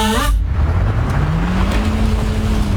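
An old car's engine strains to climb a hill, a steady loud drone whose low hum slowly rises in pitch throughout, with no voices.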